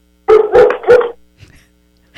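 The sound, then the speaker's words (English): A dog barks three times in quick succession, loud and mid-pitched, followed by faint scuffling and a soft trailing sound. “They agree. The dog agrees.”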